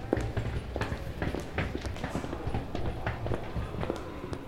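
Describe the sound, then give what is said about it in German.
Footsteps of people walking with a suitcase over to a bench: many quick, steady steps tapping along over a continuous noisy background. “Komm, nimm deinen Koffer und wir gehen darüber zu der Sitzbank.”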